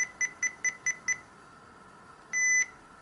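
Electronic beeping from an alarm clock alarm: six short, evenly spaced high beeps, then a pause and one longer sustained beep. The beeps are fairly faint and no one speaks.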